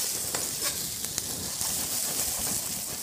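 Sliced potatoes and onions fry in a pan as fried potatoes, giving a soft, steady sizzling hiss broken by a few faint crackles and pops, with no talk.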